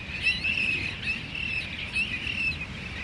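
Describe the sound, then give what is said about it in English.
Cassin's auklet calls outside a field house on the Farallon Islands: a continuous, raspy chirring with repeated phrases about every half second, carried over steady background noise. “that is the call of the Cassin's auklet”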